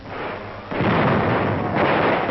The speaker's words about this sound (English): Pillboxes cleaned out with grenades.